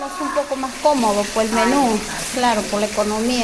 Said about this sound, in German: Sie steht an der Bratpfanne in einer der vielen Volksküchen in den armen Vierteln rund um die Landeshauptstadt Lima.